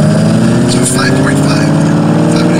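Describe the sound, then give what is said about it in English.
A Mach-E car revving gives a loud, steady droning hum with layered tonal harmonics. A few brief higher whines rise through the middle of the rev. “He might do another rev here. Here we go.”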